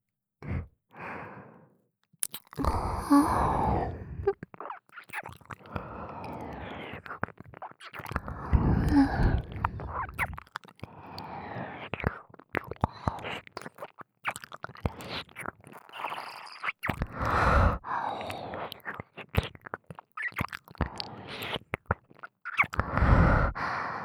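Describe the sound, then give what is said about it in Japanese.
Close ASMR mouth sounds of nibbling and licking at an ear: soft wet clicks, smacks and breathy sighs come in irregular quiet bursts, with short pauses, over about twenty-four seconds. “勇者様のお耳、おいしい。反対のお耳も気持ちよくしてあげます”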